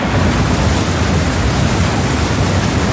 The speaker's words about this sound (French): c'est de l'eau, hein, je précise.